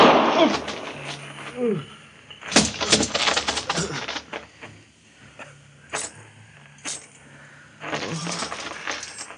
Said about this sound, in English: Hit me in the chest. I couldn't get your finger off the trigger.